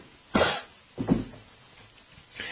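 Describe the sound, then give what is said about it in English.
Throat clearing from someone bothered by seasonal allergies: a few short, rough bursts with pauses between them and no talk. “I feel like I'm clearing my throat every 5 seconds.”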